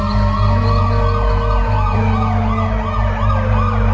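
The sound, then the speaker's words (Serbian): Police and ambulance sirens arriving at an emergency scene, loud and continuous, with repeated rising and falling wails over a steady low vehicle hum. “Dolaze policija i hitna. Vidim ih.”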